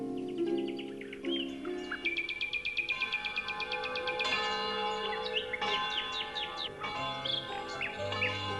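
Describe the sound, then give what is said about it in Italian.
Church bells ringing in a valley while small birds sing, with sustained ringing bell tones under repeated bright chirps and trills, all rather faint. “nella valle suonavano le campane e gli uccellini cantavano felici”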